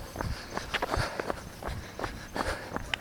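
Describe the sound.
Footsteps of a person out running: many quick, fairly even footfalls in a steady rhythm, moderately soft and alone without talk.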